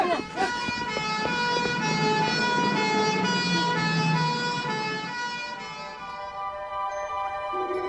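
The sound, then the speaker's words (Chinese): An ambulance siren wails loudly in a sustained, slightly wavering tone, then fades away toward the end. “快叫救护车啊！”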